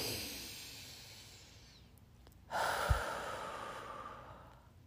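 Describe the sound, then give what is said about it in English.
A deep breath during a guided breathing exercise: a soft airy hiss that fades away, then after a brief gap a louder, steady rush of breath. “Let's take another deep breath together.”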